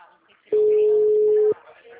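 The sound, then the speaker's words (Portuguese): Ringing tone on an outgoing phone call: a single clean, steady beep lasting about one second, with faint voices murmuring quietly before and after it. “Mas tô ligando, tá chamando? Só tá chamando, na verdade. Tô ligando, só tá chamando.”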